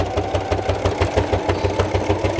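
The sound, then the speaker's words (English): A sewing machine stitches fabric along a seam, a steady mechanical whir with a fast, even pulsing rhythm from the needle action, fairly loud and without voices. “And we're sewing. Trying for straight. Ugh, and the more I try for straight, the wobblier it goes.”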